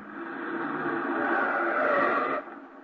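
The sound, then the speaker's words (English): Car engine as the vehicle makes a sharp turn into a driveway: a sustained, tonal hum that swells slightly, then drops off abruptly near the end. “The sharp turn into this driveway.”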